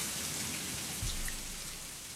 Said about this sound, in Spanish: Y se va la lluvia, se va.